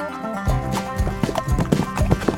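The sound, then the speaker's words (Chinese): Feet stomp hard on the ground in anger: a quick series of heavy, thudding stamps over a steady tonal backing. “我们生气时啊，就会跺跺脚，用力的踩，用力的踏。”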